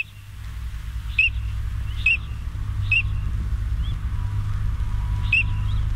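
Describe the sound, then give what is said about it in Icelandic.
A duck calling: five short, high-pitched calls spaced about a second apart, the fourth fainter than the others, heard over a steady low rumble. “sjáum hvort að við þekkjum einhvern mun að hljóðin í þessari önd og bara öðrum öndum”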